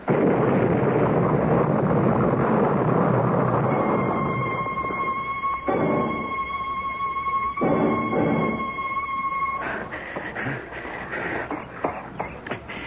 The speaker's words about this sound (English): Now, maybe you'll believe me. You know that bomb was meant for me?